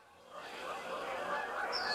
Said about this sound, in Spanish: oyó volar sobre él. Miró hacia arriba y vio que sobrevolaba un grupo de pájaros grandes, fuertes y con poderosas alas blancas.